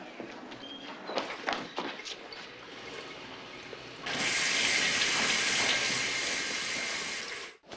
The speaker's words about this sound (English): He's taking a shower.